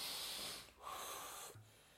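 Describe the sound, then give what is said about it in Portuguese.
Deep breath, quiet and airy, the hiss of breathing split into a few phases by brief pauses. “Vamos respirar fundo.”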